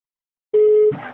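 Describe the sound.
A telephone call rings on the line just after dialling. A single steady, clear electronic ring tone lasts under half a second and then gives way to a brief muffled noise.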